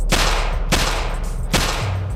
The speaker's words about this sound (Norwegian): Et vindu går ned. Så kommer skuddene.